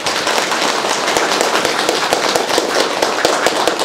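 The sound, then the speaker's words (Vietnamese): An audience applauds at a Buddhist gathering. The clapping is loud and densely packed, a steady crackling roar that holds even throughout, with no voices on top. “Xin tán thán và mời yêu cầu quý vị cho những Phật tử đó một tràng pháo tay.”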